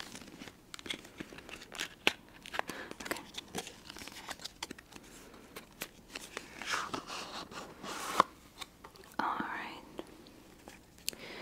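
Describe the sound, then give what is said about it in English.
Tarot cards are drawn out of their box with crinkling, scraping and light tapping of card and packaging, under soft whispering. “Taking the cards out.”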